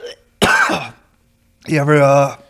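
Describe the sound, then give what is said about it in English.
A harsh cough after exhaling weed the wrong way, one loud rasping burst followed after a short pause by a longer, strained voiced sound. “you ever exhale weed the wrong way? Whew. Makes you cough.”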